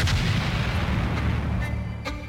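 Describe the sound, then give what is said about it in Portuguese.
A bomb thrown from a vehicle blasts the headquarters of a political party on a street in Funchal, Madeira, before dawn; a loud, deep boom rolls into a long, low rumble that slowly fades. “Uma explosão ecoa pelo Funchal.”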